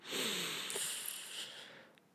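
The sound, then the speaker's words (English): A deep breath drawn in through the nose, one soft, airy inhale lasting about two seconds, faint and alone. “take a deep breath in”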